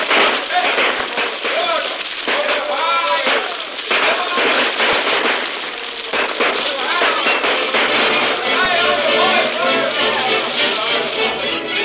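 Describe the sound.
Rifle gunfire in a dramatized battle scene among buildings, with many rapid crackling shots, a few sharper cracks standing out, and dense continuous noise throughout, while voices shout over the shooting.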